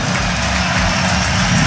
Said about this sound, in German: Ja, Frankfurt Flughafen. Hast du am Flugzeug erkannt, ne?